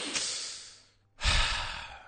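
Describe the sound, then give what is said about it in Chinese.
A deep, audible breath from a stand-up comedy host, heard as two breathy rushes of air with no talking. The first is steady and fades away, and after a brief gap comes a louder, fuller second breath. “所以说，先请各位啊先来个深呼吸。”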